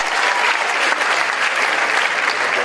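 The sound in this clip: Audience applause: dense, steady clapping from a crowd that holds at an even, fairly loud level throughout, with no voices over it.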